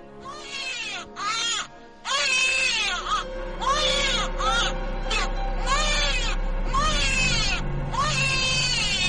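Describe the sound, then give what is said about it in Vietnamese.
A newborn baby cries in loud, repeated wails. Many high, strained bursts are broken by short gasping pauses over a low steady hum. “Vậy là cứ mỗi đêm đúng 12 giờ lúc niệm bùa, lại có tiếng trẻ sơ sinh khóc vang lên đến buốt lòng.”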